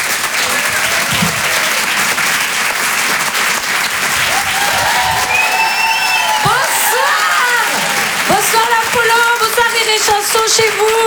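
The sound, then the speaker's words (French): Comedy club audience applauding and cheering for a comedian as she is introduced: dense, loud, steady clapping with scattered cheers and whoops rising above it. “Faites du bruit s'il vous plaît pour Myriam Barouk.”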